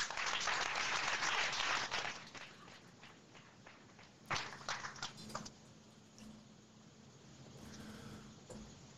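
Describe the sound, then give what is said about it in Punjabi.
An audience at a wedding gives a round of applause, dense clapping loudest at first, then thinning into softer, scattered claps that continue to the end. “ਜੋਰਦਾਰ ਤਾਲੀਆਂ ਮਾਰ ਦਿਓ”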